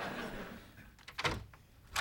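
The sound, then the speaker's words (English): Door sounds mark someone arriving at the door: a few dull, heavy thumps in quick succession with quiet pauses between them. “There's someone at the door.”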